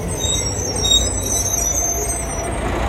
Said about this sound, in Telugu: రవి త్వరగా రా, బస్సు వచ్చేస్తుంది.